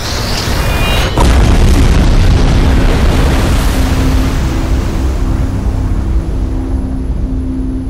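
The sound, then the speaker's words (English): A heavy explosion as a torpedo blast strikes a cruiser in a wartime naval battle: a sharp hit just after the start gives way to a loud, sustained low roar and rumble that carries on to the end. “mangled bodies thrown into the air by the torpedo blast splash down all around him in slow motion”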